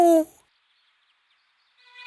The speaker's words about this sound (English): Hoot like an owl.